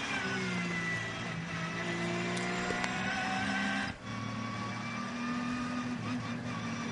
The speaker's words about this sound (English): And suddenly, yes, as you say, the Cup 2 Porsches all diving into the pits.